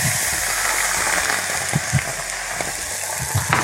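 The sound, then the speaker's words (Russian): Cream poured into a hot pan sizzles and crackles in a continuous frying hiss, with a few soft bumps and pops scattered through it and no talking. “Немножко понизить темп. И вот сейчас в этот момент добавляем сливки.”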